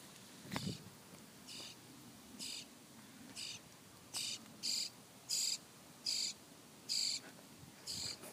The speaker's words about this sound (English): So that's the sound of baby birds, or a baby bird, in, I think it's called a bowl.